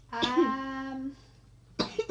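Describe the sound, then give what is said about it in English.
Coughing from a sick person: a drawn-out, voiced, rasping cough, then a quieter moment, and finally a few short, harsh cough bursts in quick succession. “I'm so sorry about the cough.”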